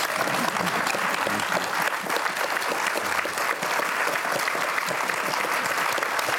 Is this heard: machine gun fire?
no